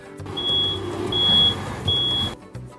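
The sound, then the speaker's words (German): A truck reversing gives three evenly spaced, high-pitched electronic warning beeps over a low engine rumble, then the engine noise drops away near the end. “Nein, ich fahre gerade mit einem LKW rückwärts.”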